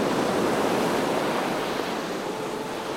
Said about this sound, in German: Der Ozean ist wie ein Magnet.